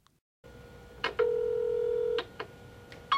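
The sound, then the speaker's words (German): Telephone answering machine tones: a soft click, then a sustained electronic beep of about a second, followed by a few short tone blips, clear and fairly quiet with no voices. “Sie hören die Ansage auf dem Anrufbeantworter.”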